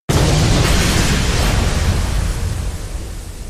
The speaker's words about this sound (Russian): Взрыв. Глухой, тяжелый, будто удар железного молота по легким.